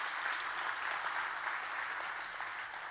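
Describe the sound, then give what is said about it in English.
A church audience applauds to welcome online viewers at a morning service, a steady, fairly soft wash of clapping that lasts throughout. “Let's give them a great big Journey Church welcome this morning. Come on, give it up for them.”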